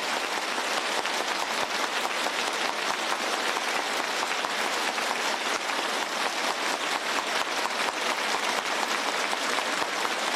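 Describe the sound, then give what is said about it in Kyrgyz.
Warm applause from teachers and students who rose together to greet the arrival of two party leaders; dense, even clapping runs steadily for about ten seconds with no voices rising above it. “Жүнгө Чаушен эки партиянын баш ужилери жетип келгенде окутуучу окуучулар чогуу ордунан туруп эки партиянын баш ужилерине кызуу кол чапты.”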